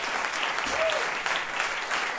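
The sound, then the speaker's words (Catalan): Dense, steady applause from an audience after a traditional song performed by a vocal ensemble, a continuous crackle of many hands clapping throughout. “Aplaudiments per aquesta cançó tradicional, Yovka”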